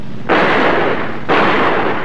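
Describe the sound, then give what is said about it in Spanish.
Two gunshots fired into the air beside a bus by riders on horseback, heard as a pair of loud, broad noisy blasts about a second apart, each lingering before fading. “Marcos, el hijo de Don Silvestre, y sus dos hombres se acercan a caballo, disparan al aire al costado del autobús.”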